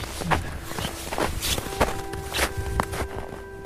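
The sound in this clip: Footsteps walk outdoors up toward the veranda of an empty house, a steady series of several crisp steps at an even pace, heard alone with a faint steady tone underneath.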